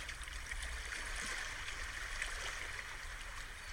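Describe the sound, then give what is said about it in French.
Sea waves and water wash at the seaside in a soft, continuous rush of moving water, faint and steady with no voices. “la danse de l'eau et des vagues. On inspire et on expire au rythme de la mer.”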